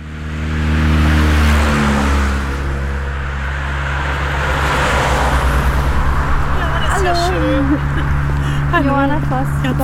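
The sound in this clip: Traffic on an expressway beside a field path near Delitzsch, next to a landfill: a steady, loud roar and hum of passing vehicles, with people talking over it in the latter part.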